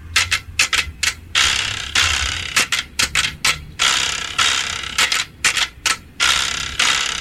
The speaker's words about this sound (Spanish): Así suena la carraca.